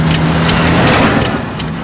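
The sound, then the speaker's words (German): A rusty car with a broken exhaust gives off a loud, rough engine rumble with a low droning hum under broad, steady noise. The sound holds evenly for most of its length, then dips a little near the end. “an der nächsten Kreuzung kam ihnen ein rostiger Wagen mit einem kaputten Auspuff entgegen.”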